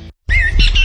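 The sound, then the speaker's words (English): A bird squawks in a spring backyard in southern Ontario: one brief, bright, loud call that wavers in pitch, coming right after a short moment of silence. “Hear that? That's the sound of spring in southern Ontario. And if you'd like to hear more of it in your backyard, start with the right bird seed.”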